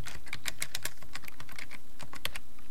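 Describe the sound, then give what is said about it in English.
Rapid typing on a computer keyboard at a terminal: many crisp, sharp key clicks in an uneven, quick rhythm with brief pauses between bursts, heard alone with no voices. “Let's type something.”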